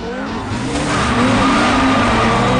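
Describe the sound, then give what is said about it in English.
Street race cars roar away from a start line, with engines revving hard and tires squealing in one continuous rush of noise that grows louder after the first second. “They race away.”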